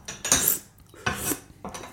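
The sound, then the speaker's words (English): Metal cutlery clinks against a spoon and dishes as a liquid is poured onto the spoon for tasting: a few bright, scraping clinks in separate bursts, with no talk. “So yeah, just pour a little bit on the spoon and, swirl it in your mouth like you do with wine.”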